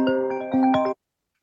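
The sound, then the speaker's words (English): A mobile phone ringtone plays a short melodic phrase of several bright tonal notes, then cuts off abruptly into silence. “my phone rang.”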